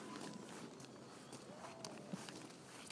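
Faint footsteps of people walking through woods on an Easter egg hunt: soft, irregular steps over a steady background hiss throughout.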